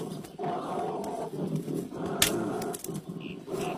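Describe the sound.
An angry bear roars in a low, rough, sustained growl that rumbles continuously through the whole stretch, swelling and easing slightly in loudness without a break.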